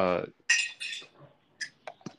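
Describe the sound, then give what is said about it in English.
Dishes clatter as they are set down in a kitchen sink: a few brief, sharp clinks of crockery and cutlery, faint and spaced apart, following a short burst of voice at the start. “Was somebody washing the dishes or something? Nah, I had just got up and put it in the sink.”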